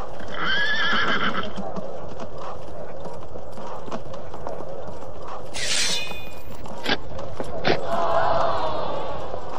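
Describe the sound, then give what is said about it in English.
A horse whinnies and its hooves clop as it steps onto a golden carpet. The high neigh comes early, followed by scattered hoof knocks and a few sharp clicks over a steady rumble. “His horse is stepping onto the golden carpet.”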